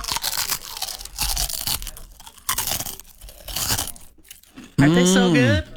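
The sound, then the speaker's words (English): Someone eats Sterzing's potato chips from Burlington, Iowa, producing crisp, loud crunching in several irregular bursts separated by brief pauses. A short voiced tonal sound follows at the end. “I'm going to eat some new chips.”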